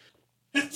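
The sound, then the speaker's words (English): A single sneeze bursts out sharply after a moment of near silence, very short and loud. “Bless you.”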